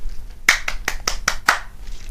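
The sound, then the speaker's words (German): Six sharp hand claps sound at a steady, moderate pace, evenly spaced and of similar loudness. Quiet follows them. “Applaus.”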